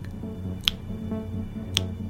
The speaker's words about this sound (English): He would make sounds, usually by clicking his tongue. A quiet click might sound like this,